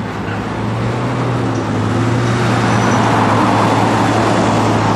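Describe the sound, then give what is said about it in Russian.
A yellow Ford Crown taxi pulls away and drives, producing a loud, continuous engine and road rumble that stays steady throughout, with no voices. “Тронувшись, такси едет за внедорожником.”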